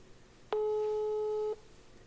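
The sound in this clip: A single steady telephone ringback tone sounds over a speakerphone during an outgoing call. It is an even, mid-pitched hum with faint harmonics, lasting about one second, alone against low background hiss.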